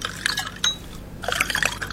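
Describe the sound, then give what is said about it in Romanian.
Liquid pouring into a glass as whisky is mixed with soda, one part whisky to two parts soda: a few short splashes and drips, a brief pause, then a longer bubbling, gurgling pour. “Cum să ți-l fac? Jumătate, jumătate? Cred că ar fi mai bine o treime whisky și două treimi sifon.”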